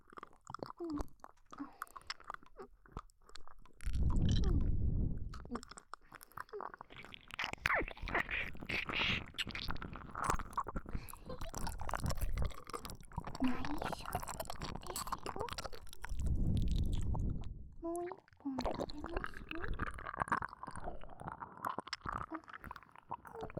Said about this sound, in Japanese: このポッキーの両側からギリギリまで食べるんです。うさぎちゃんみたいにカリカリカリって